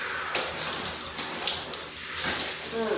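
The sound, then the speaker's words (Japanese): Running water rinses shampoo out of hair, a soft continuous spatter and hiss with a few brief louder splashes, fairly faint throughout. “今ね、シャンプー流してみます。”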